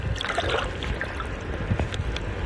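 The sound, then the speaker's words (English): Water sloshes and swishes steadily as a fishing net held tight on a pole is dragged through shallow water toward shore, a continuous low rushing wash with small splashes and no voices. “So you can kind of hold the pole a little bit diagonally like this. We're gonna keep the net tight. Keep it back this way? Like yes. This? Okay. And we're gonna just drag it along to shore.”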